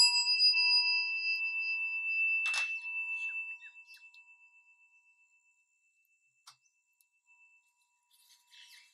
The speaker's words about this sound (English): I'm going to turn my timer on and we're going to begin.